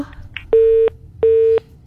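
A telephone busy tone sounds after a call is disconnected: two steady, mid-pitched tone pulses of equal length separated by a short silence, loud and clear, with a brief click at the end.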